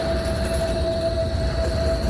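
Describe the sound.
A tram squeals on its rails, a sustained high metallic whine held at a steady pitch over a dense, continuous rolling rumble, with no talking.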